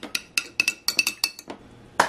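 A spoon clinks against a glass while stirring electrolyte drink mix, many bright, irregular metallic taps in quick succession, with one last louder clink after a short pause.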